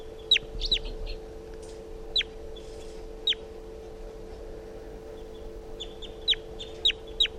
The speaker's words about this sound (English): The wild bird just flew over the net and came close, chittering on a swooping flight.